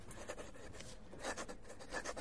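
Faint, continuous scratching of a pen as a phone extension is written down on a note.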